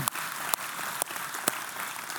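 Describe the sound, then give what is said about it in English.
Audience applause for a church's student ministry: a steady, fairly soft wash of clapping that holds at an even level, broken by a few brief sharp dips. “So how about a round of applause just for our student ministry in general?”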